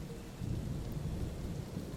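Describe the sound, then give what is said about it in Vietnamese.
Heavy rain pours down with gusting wind, making a steady, faint rushing roar with a low rumbling undertone throughout and no voices. “mưa rầm rập cùng tiếng gió ào ào va đập mạnh hai cánh cửa”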